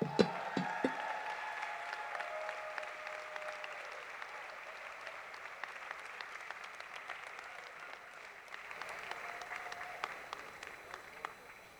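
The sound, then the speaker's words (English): Steady applause from an audience honoring the tech production crew, fairly faint and sustained throughout, with a few sharper claps at the very start. “While I'm putting this on, will you all please make some noise for those people?”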